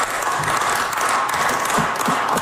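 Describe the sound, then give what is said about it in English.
Tired clapping from members in the Manitoba Legislature chamber after an all-night budget bill debate, a faint, loose patter of scattered claps with an irregular rhythm and no cheering. “Some tired claps there.”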